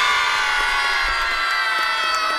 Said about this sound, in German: Also, vielleicht nochmal ganz fleißig jubeln.